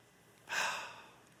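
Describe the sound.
One slow, deep breath out during a guided breathing exercise, a soft airy exhale that swells quickly and then fades over about a second, quiet and alone.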